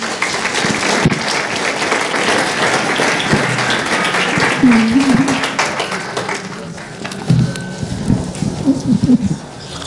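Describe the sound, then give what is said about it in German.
Audience applause welcoming two speakers at a church gathering: loud, sustained, dense clapping that carries on throughout and thins slightly toward the end, with a few voices calling out over it. “Lasst uns doch Megan und Birgit mit einem warmen Applaus willkommen heißen.”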